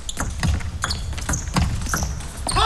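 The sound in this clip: Table tennis ball bouncing during a serve in a match: a few sharp, light taps spaced through steady background noise.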